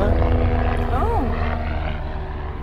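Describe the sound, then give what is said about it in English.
A helicopter flies overhead, giving a low, steady rotor rumble that fades slightly toward the end. A brief voice sounds over it. “helicopter.”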